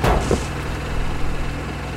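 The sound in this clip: A generator engine runs with a steady low mechanical hum and a rough, even drone, slightly louder in the first moments.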